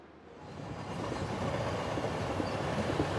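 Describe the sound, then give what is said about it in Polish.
Train sounds at a railway platform: a broad, steady rumbling roar that builds in loudness over the first second, then holds level without any voices. “Zapraszamy na peron.”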